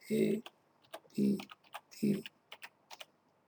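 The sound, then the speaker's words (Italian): Typing a word on a computer keyboard: a scattered series of light, crisp key clicks in an irregular rhythm, broken up by a few short, low vocal sounds. “Vediamo un po', aspetta, lo scrivo magari in lettere.”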